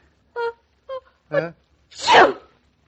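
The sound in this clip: A sneeze: three short voiced gasps build up, followed by one loud, breathy explosive burst that trails off.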